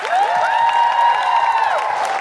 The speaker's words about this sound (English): a big round of applause for Catherine Bohart, everybody. And the incredible Priya Gupta.